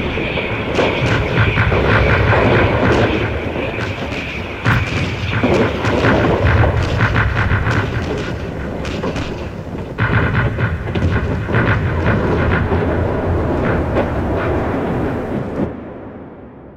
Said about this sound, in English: Body is shaking. Yes, it'll do that to you. The noise is as much a weapon as the high explosive. I've seen men under a barrage like that curl up and weep like babies.